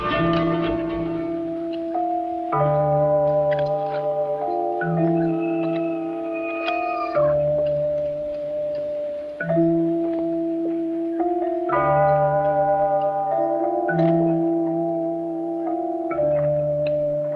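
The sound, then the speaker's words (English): A soft melody on quiet organ and malleted instruments from a spaghetti western film score. Sustained organ chords underlie chiming, bell-like mallet notes in slow phrases that repeat, steady in level with no voices. “we hear a soft melody played on a quiet organ and malleted instruments. It sounds like this.”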